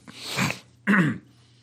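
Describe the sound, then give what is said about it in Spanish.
A person coughs and clears their throat after choking slightly, making two rough, breathy bursts separated by a short pause. “¿Estás ahí con un poquito tos? Me ha atragantado un poquillo.”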